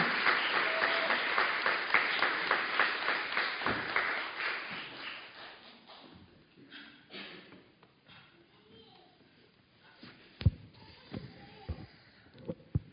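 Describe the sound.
Audience applause greets a guest speaker at a morning gathering: dense, loud clapping for several seconds that thins and fades, followed by a single voice speaking with a few scattered taps.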